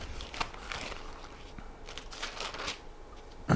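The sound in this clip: Soft papery rustling and swishing as pages of a Bible are turned, a quiet, uneven run of crinkly brushes with a few slightly louder flicks.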